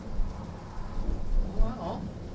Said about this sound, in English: It's coming back, I think. Yes, it is. A little storm on its way back in. Around. Rolling thunder.